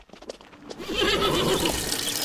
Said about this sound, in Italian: Attenta con quel cavallo di merda! Mi stavi per schiacciare